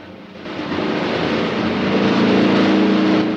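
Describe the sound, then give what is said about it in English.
Boat engine roaring as the boat speeds away under a bridge, a steady broad rushing drone that swells gradually louder and holds. “the boat speeds out of range. The boat moves under the bridge and out of sight.”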